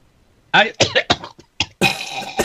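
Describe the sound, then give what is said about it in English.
Coughing from a congested person with a lingering cough: a run of several short, harsh, rasping bursts in quick succession, then a longer rough noisy stretch, fairly loud and without talk. “I just still have the cough.”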